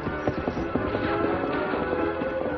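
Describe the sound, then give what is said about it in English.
Hoofbeats of a great white stallion galloping off: a quick, steady clip-clop of many hoof strikes in a driving rhythm, loud and continuous throughout. “The great white stallion leaped forward.”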